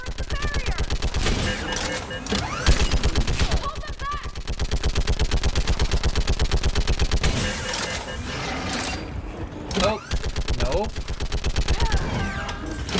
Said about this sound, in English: Get on that gun up there and do some damage. Oh, get on the gun. Get on the gun. Mounted gun.